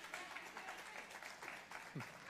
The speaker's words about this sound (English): go ahead and clap, it's good.